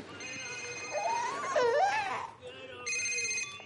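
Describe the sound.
A mobile phone rings with a warbling electronic melody, fairly loud, then pauses briefly before a higher tone pattern resumes.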